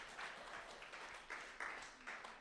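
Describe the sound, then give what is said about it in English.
A church audience claps during a sermon, producing faint, ragged applause with uneven bursts of overlapping hand claps that swell and dip across the stretch. “Yeah, you can clap. You can give Jesus a shout for that.”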